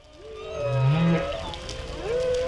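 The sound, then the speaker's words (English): Humpback whale song: long tonal moans that slide and sweep upward, one low mournful note rising in pitch near the middle and a higher upsweep toward the end, loud and alone with no talking. “Take the humpback whale”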